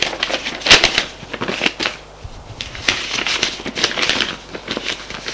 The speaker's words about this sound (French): Et il remet la lettre dans l'enveloppe.